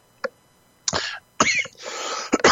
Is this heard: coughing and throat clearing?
yes

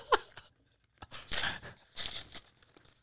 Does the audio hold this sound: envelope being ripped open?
yes

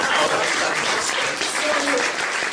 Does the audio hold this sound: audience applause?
yes

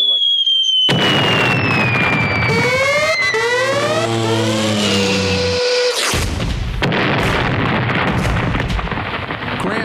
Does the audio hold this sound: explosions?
yes

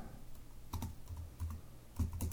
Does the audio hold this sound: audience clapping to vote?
no

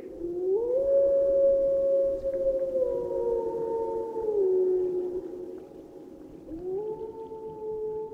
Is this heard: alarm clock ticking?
no

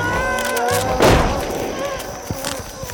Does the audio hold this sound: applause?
no

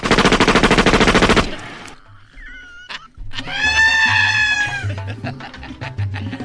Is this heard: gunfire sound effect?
yes

